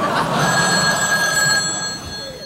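A telephone ringing with a steady, loud electronic bell tone that holds over a hissy background and eases off slightly near the end.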